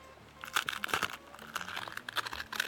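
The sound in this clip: Crisp crunching and crackling as a wheat rusk is broken apart by hand, with many quick, dry snaps and crumbles running steadily through the moment.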